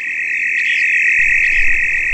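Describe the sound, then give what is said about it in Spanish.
Crickets fill the hot air with a shrill, strident drone: one steady, high-pitched band that holds loud and unbroken throughout, with no talk. “Los grillos llenan de rumores estridentes el caldeado ambiente.”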